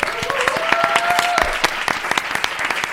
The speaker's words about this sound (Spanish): Un aplauso, por favor.